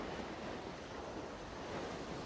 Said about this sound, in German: Die heranrollenden Wellen, die mit einem kleinen Zischlaut am Ufer auslaufen,